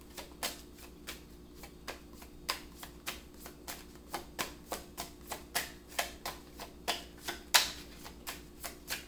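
Tarot cards being shuffled: many quick, crisp card flicks and snaps in a steady, fairly even rhythm, moderately quiet with no voices.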